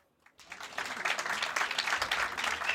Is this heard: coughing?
no